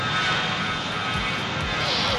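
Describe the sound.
An airplane taking off, with a loud, steady engine roar that fills the whole clip at an even level.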